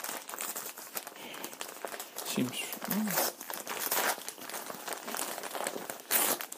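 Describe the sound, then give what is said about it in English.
Wrapping paper crinkles and tears as a Christmas present is opened, with irregular rustles and sharper ripping bursts that come and go in uneven clusters. “And then I open the present.”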